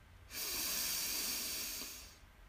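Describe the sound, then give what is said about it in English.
One long, deep belly breath in a guided breathing exercise, a steady airy hiss lasting about two seconds that swells quickly and fades slowly, with no talking. “So we'll take a deep breath in, expanding your belly on the in breath. Hold and then release all that stale air out of the lungs.”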